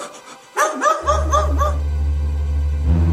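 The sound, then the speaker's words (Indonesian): A puppy gives a quick series of high, whining yips. A loud, steady, low droning hum then starts and continues to the end. “Ayah, ada anjing.”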